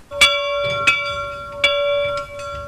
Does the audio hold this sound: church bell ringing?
yes